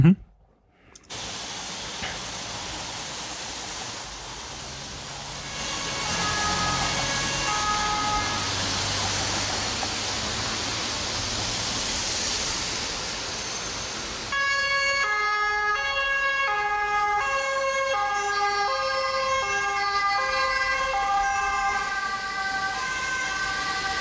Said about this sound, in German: Also wie man gehört hat, zwei Autos hintereinander. Und zwei, genau. Ja, das sind bei uns die Folgetonhörner.